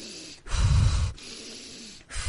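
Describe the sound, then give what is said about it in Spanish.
A woman imitating gasping breaths as if drowning: one long, rough, hoarse inhalation, a quieter pause, then a second gasp starting at the end. “empecé a respirar, bueno, como si me hubiese ahogado, ¿sabéis? Así.”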